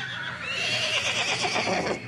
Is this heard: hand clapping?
no